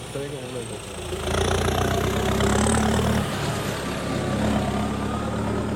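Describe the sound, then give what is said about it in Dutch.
A farmer's tractor approaching to work the land: a broad, steady engine drone that grows louder after the first second and then stays loud and even. “Er komt wel een boze boer aan met een trekker.”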